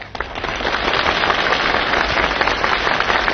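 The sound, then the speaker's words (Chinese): Audience applause at a comedy sketch performance: a dense, continuous, somewhat muffled roar of many hands clapping that rises quickly and holds steady throughout. “你听管仲的掌声，掌声如雷呀”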